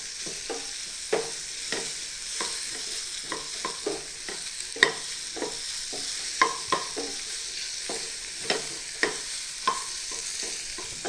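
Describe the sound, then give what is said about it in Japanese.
Onions being stir-fried over medium heat in a pot: a soft, steady sizzle dotted with many irregular scraping and tapping clicks from the stirring. “さあ、そしたら玉ねぎを加えましょう。そしてまた中火で炒めていきます。さらに30秒ほど炒めるのが目安ですね。”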